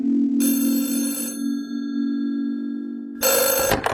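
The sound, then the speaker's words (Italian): An electronic telephone ringtone signals an incoming call in two bright trilling bursts, the first about a second long and the second shorter, over a steady low hum. “Chiamata dallo Sri Lanka da parte del signor Arthur Clark.”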